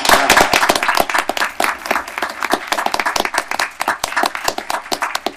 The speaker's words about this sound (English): So congratulations to all of you. Let's hear it for our artists.